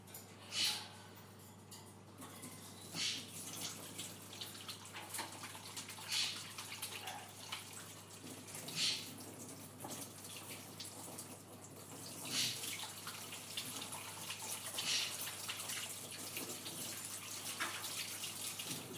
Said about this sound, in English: what do we do after handling raw meat, folks? We wash our hands.